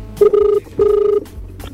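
The ringback tone of an outgoing telephone call sounds as two loud, steady mid-pitched tone bursts separated by a short gap, the first briefly broken at its start.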